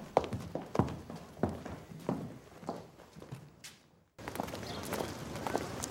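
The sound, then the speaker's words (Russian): Footsteps of people walking away, with soft, irregular thuds repeating at a steady walking pace over a murmuring background. The sound drops out briefly near the end and then resumes with a denser background. “Пошли! Все уходят.”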